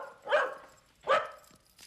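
A dog barks twice, two short, fairly faint barks spaced under a second apart against a quiet background.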